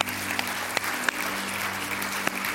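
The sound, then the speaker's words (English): An audience claps in steady, continuous applause at moderate loudness, with a few sharper individual claps standing out from the dense patter. “Let's clap”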